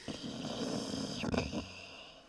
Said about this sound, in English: He snores on his back, he snores on his side. It's just, he snores.